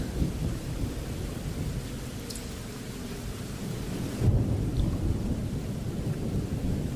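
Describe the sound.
Deep rolling thunder from a lightning storm rumbles continuously, layered over steady rain, with the low roar swelling again partway through and lingering to the end.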